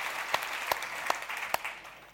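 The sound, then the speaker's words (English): Audience applause at a festival welcoming a journalist on stage: dense clapping with a few sharper claps standing out, tapering slightly toward the end. “So please put your hands together and welcome to the festival, journalist Stephen Davis.”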